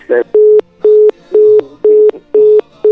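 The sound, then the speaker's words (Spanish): Telephone busy signal after a dropped call: a loud, steady run of identical mid-pitched beeps pulsing on and off at an even half-second rhythm, with no talk over it. “se le cortó la llamada, parece, a Miguel”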